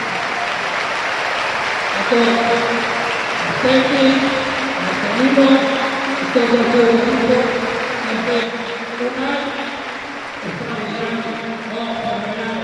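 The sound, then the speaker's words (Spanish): Crowd applause in a football stadium: steady, dense clapping and crowd noise that holds throughout, with a voice talking over it. “Merece un gran aplauso.”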